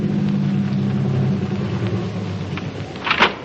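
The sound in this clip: A car engine left running while parked at a drive-in, giving a steady low idling hum that eases slightly partway through, followed by a brief louder burst near the end.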